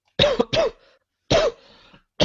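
Harsh, throaty coughs in a few loud bursts, two close together and then another after a pause, with a new one starting at the end.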